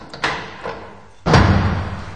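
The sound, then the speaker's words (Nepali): A door slamming shut: two lighter thumps come first, then one loud, heavy slam whose dull rumble lingers to the end. “तर जब तिनीहरू तेल किन्नका लागि बाहिर गए, त्यस बेला ढोका बन्द भयो।”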